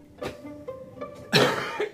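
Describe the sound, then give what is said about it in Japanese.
A person coughs and splutters as if choking, a few harsh bursts with the loudest near the middle and two shorter ones close together at the end, with no talk over them. “むせてますやんコーヒーでも飲んでくださいよ”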